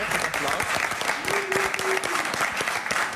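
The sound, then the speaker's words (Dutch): A studio audience in a canteen breaks into steady, dense applause that runs through the whole stretch, with a voice briefly audible under the clapping. “we hebben nog niks gedaan en nu al applaus.”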